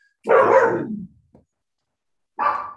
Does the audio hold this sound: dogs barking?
yes

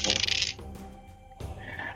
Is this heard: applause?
no

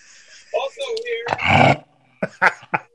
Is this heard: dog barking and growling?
yes

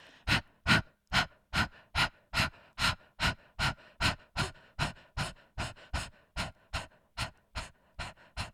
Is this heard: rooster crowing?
no

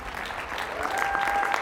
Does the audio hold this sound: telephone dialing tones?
no

